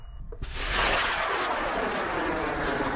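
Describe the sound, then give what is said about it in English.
A student-built 5-metre, 40-kilogram rocket launches from a remote sheep station field near White Cliffs in far west New South Wales during a rocket competition. Its loud, broad roar bursts in abruptly and holds steady to the end. “Launching thousands of feet into the air, a 5-metre tall, 40-kilogram rocket takes off from a remote field in far west New South Wales.”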